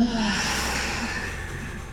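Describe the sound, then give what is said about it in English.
A long, audible breath during a guided breathing exercise, heard as a steady, airy rush of breath noise that fades slightly toward the end, with no talking. “One more big inhale and an audible exhale.”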